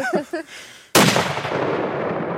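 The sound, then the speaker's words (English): A single loud rifle shot, the one round loaded into a four-round magazine, fired at a white-tailed deer already killed by a car. A sharp crack is followed by a long rumbling decay that fades slowly. “He loads just one bullet into the magazine, even though it can hold 4. You're going to kill this deer with one shot. I'm going to kill this deer with one shot.”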